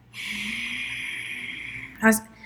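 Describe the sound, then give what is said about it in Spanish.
Ujjayi yoga breathing, a slow exhale pushed through a narrowed throat as if scratching it: a steady, raspy, throaty hiss held for nearly two seconds, then a short, sharper burst of breath. “es importante respirar como si estuviéramos rascando nuestra garganta. Quienes han hecho yoga lo han escuchado, el Ujjayi Breath. Que uno respira y cuando exhala, o sea, cuando está botando el aire”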